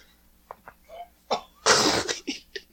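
A man's back being cracked with the air forced out of his lungs: a few short, soft bursts, then a loud breathy blast lasting about a third of a second, followed by a few short, quieter vocal bursts.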